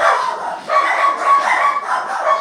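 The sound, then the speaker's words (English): Several excited dogs barking: a dense, continuous run of sharp, overlapping barks that rise and fall in quick bursts throughout. “my dogs are going crazy. And I think it's time for me to go and shut the suckers up, take them for a walk.”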